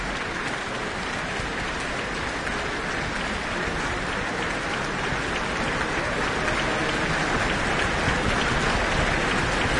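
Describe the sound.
Sustained applause from a concert audience after the Auckland Philharmonia performs Beethoven's Second Symphony in D major. Many hands clap in an even, continuous wash that resembles heavy rain and holds steady without a break.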